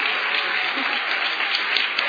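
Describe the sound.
An audience applauds to welcome a guest, with dense, even clapping that holds steady throughout.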